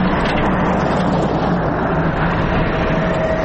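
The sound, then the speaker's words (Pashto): A four-wheel-drive vehicle drives along a rough, potholed mountain road to Baghran district in Helmand, a loud, unbroken rumble of engine and road noise with no talk. “د باغران ولسوالۍ ته پر غځېدلي کنډ او کپر سړک د روان هغه کومک لرونکي بایپور موټر ږغ دی”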